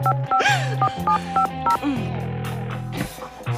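Dialing a telephone number: a rapid series of short electronic touch-tone beeps at varying pitches, fairly loud and heard without talk.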